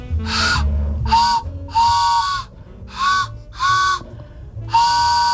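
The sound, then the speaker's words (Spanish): A homemade whistle imitating an old-fashioned train, sounding six chord-like hooting blasts with steady pitched tones, each about half a second to a second long, separated by short gaps of quiet. “¿Pero eso qué hace? ¿Cómo suena? Es un tren.”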